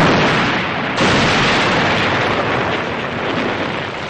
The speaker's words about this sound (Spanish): De pronto el coche explota.